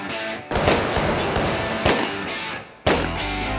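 Gunfire at a firing range starts after a softer lead-in and becomes a loud, dense, continuous roar of rapid shots. Sharp new bursts hit twice more and keep the barrage going to the end.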